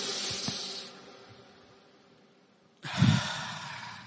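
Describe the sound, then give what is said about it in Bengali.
Deep breathing exercise: a slow breath drawn in, then a pause, then a fuller, louder breath released as a calming technique, with a breathy rush and no talking. “বুক ভরে তখন শ্বাস নিব, ধরে রাখবো, ছাড়বো।”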